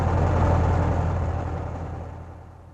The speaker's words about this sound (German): Doch nicht nur der Motor des Omnibuses lief auf Hochtouren